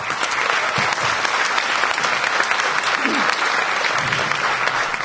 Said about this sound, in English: I got everyone to clap right, for you.